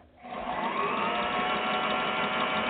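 Steady mechanical whirring of a sewing machine stitching through fabric, beginning after a brief quiet moment and then running continuously at an even, moderate level to the end.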